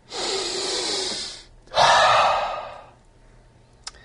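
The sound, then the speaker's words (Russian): A deep breath taken during a guided relaxation exercise: one long, airy inhale followed after a short pause by a fuller, slowly fading exhale, heard alone and fairly close. “можно в конце вот этого ощущения сделать хороший глубокий такой вдох, да, как в пад делаем, да, на вдохе прочувствовать, на выдохе постараться отпустить.”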